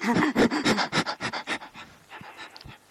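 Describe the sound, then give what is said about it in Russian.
People pant rapidly in a fast breathing exercise, a quick rhythmic run of short breaths in and out that later thins into fainter, sparser puffs. “Попробуйте все вместе сейчас делать часто-часто вдох и выдох.”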